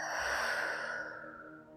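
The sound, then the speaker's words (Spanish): A deep breath drawn in through the nose and let out through the mouth during a guided breathing exercise: one long, breathy rush of air, strong at first and then fading softly, with no talk. “Inhala profundo por tu nariz. Y por tu boca deja salir todo el aire.”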